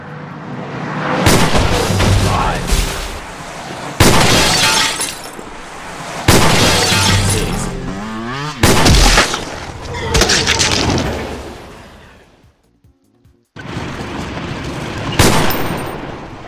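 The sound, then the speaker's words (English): Gunfire from a gun in a video game. Several loud, sharp shots each trail off into a long, crashing decay, and a near-silent gap comes before the final bursts. “Now I can show you guys the gun. Damn, I missed.”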